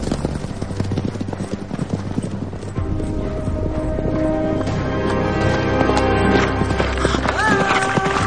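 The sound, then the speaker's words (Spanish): A white horse gallops with a young red-haired rider wearing a black cape, its hooves beating a rapid, steady clip-clop that stays loud and even throughout. “la joven pelirroja cabalga sobre un caballo blanco cubierta por una capa negra.”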